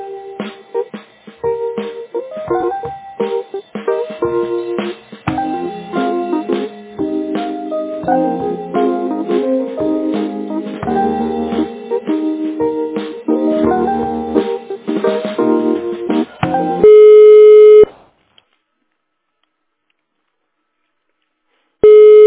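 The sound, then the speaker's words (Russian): Telephone hold tones while waiting on the line: a tinny, band-limited melody plays for most of the time, then a steady electronic tone sounds, followed by silence and a final burst of the tone. “Все наши операторы заняты. Пожалуйста, оставайтесь на линии, и ваш звонок будет обслужен первым доступным оператором.”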